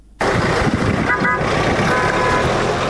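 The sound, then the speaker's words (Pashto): A car horn sounds in brief tones over steady vehicle and road rumble on a roadway in Nawa district, Helmand. “الیاس دایي ته بغوښ شو چې دغه راپور یې جوړ کړی او د یو موټر په اران پیلېږي”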